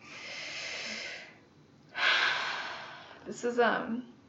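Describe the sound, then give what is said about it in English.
A deep breath taken slowly: a long airy inhale, a pause, then a longer, louder breath out, followed by a short, rougher voiced breathy sound. “Let's take another deep breath. That was good.”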